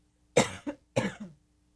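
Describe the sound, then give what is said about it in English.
A person coughs from a tickle in the throat: a few short, harsh coughs in two quick bursts, loud and alone, with no talking. “I've got a tickle in my throat, excuse me.”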